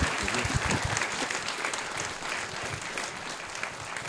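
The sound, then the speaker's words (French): Applause for a singer from an audience, a dense, steady wash of clapping that holds at an even level from start to finish, without clear voices. “Du bruit pour lui, s'il vous plaît.”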